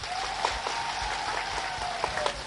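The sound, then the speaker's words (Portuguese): Faint crowd applause greets a public address in a small Mozambican town, an even, soft patter of clapping with a few sharper claps and a sustained high tone running through it. “Quero pedir uma grande salva de palmas para Salvador.”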